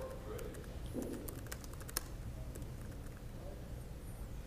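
Typing on a computer keyboard: many quick, irregular clicks of keystrokes, fairly quiet, over a steady low background hum.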